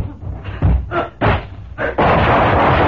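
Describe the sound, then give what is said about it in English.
Gunshots ring out in a tense struggle over a ring. A few heavy, sharp bangs come at uneven intervals, then a sustained loud burst of noise follows. “He didn't hit you with one of those stray bullets, Bass, did he?”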